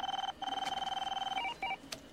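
An electronic telephone ring sounds as a faint, rapidly pulsing high tone that runs in two long bursts, then breaks into a few short blips, with no other sound around it.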